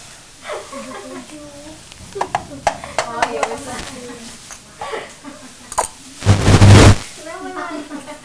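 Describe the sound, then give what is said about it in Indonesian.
Food is stirred in a pan while cooking and pepper is added. Scraping clicks sit under people talking, and a loud hissing burst comes near the end. “Kasih merica, awas dulu, kasih merica. Aduk lagi, aduk.”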